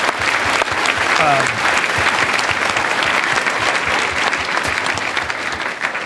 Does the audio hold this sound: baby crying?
no